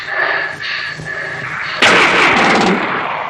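Gunfire in a tense armed confrontation: a sudden loud, sharp burst cuts through steady background noise partway in and keeps crackling densely for about a second before easing.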